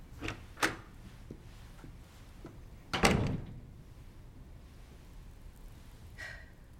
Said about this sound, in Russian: Миссис Дикинсон подходит к двери и выходит из комнаты